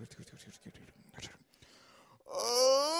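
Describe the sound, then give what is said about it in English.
A man yawns loudly just before eating a meal, a long, drawn-out voiced groan that rises and falls in pitch, following quieter, softer vocal sounds. “why are you always yawning before you eat, man?”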